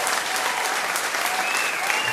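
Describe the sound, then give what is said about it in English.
Steady applause from an audience at the close of a live DJ show, dense continuous clapping filling the whole clip at even loudness, with no clear talk over it. “a round of applause for both of us”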